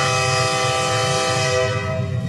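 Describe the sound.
A train horn sounds one sustained, loud chord of steady tones for the whole stretch, over a low rumble from the locomotive.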